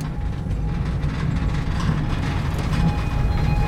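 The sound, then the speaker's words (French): Steady rumble of a visitor train climbing up into the Bex salt mine, a loud, continuous mechanical drone with a thin, faint whine running through it and no voices. “Pour information, un train visiteur monte dans la mine.”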